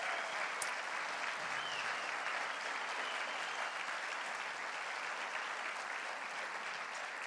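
A church audience applauds a welcome with a dense, steady wash of clapping that holds at an even level for about seven seconds without a break.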